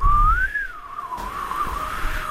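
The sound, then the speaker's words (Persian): A person whistles a single sustained tune, the clear tone rising, then wavering gently up and down for a couple of seconds over faint background noise. “چرا سوت میزنی”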